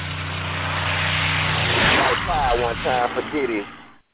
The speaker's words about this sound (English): I see you riding a jag right now.